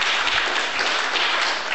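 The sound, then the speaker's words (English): Audience applause at a talk on activism: a short, dense burst of clapping that holds at an even level. “Sure, go ahead and applaud yourself.”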